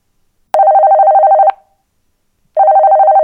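Telephone ringback tone as a radio host places a call during a Muharram radio program: two long, steady, mid-pitched warbling rings separated by a pause, the second still sounding at the end.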